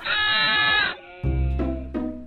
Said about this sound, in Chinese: 在山坡的另一端，小羊们整个下午都在拼命的吱个不停。